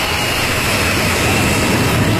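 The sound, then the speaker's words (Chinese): Steady, loud jet engine roar from a domestically built large passenger jet taking off, a dense unbroken rumble that holds even and continuous throughout. “国产大飞机一飞冲天”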